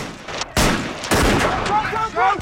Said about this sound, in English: The soldiers raise their rifles above a line of sandbags and begin firing.